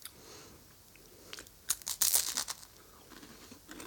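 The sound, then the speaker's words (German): A snack is unwrapped and eaten: faint crinkling and tearing of a wrapper mixed with crisp, crunchy bites and chewing, louder in the middle. “Also für die, die sagen, man darf nicht im Podcast essen, könnt abschalten.”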